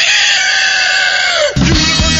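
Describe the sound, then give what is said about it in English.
A chicken gives a loud, drawn-out harmonic squawk that holds steady and then drops sharply in pitch, followed by a short burst of lower, rougher clucking. “I do speak a lot of languages. One of them is chicken. And to prove it, I have a chicken now. What do you want to say, chicken?”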